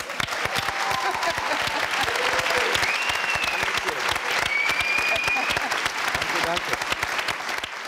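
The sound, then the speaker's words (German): Audience applause in a TV studio celebrating 20 years of the Cologne Tatort crime series, dense, steady clapping that carries on evenly from start to finish. “Auch hier ein Glückwunsch, den können wir direkt nochmal applaudieren.”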